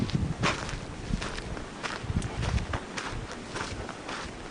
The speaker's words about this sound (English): Walking back up here.